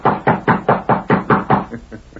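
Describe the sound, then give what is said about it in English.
Knuckles rap on a ranch house door in a quick, evenly spaced run of firm knocks that trails off into a few fainter taps. “he rode to the Lazy Inn, dismounted, and rapped on the ranch house door”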